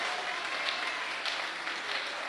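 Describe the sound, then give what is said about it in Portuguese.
Congregation clapping hands at a church service: a dense, continuous patter of many claps with no clear pauses and a steady level throughout. “Essas palmas aí estão aparecendo.”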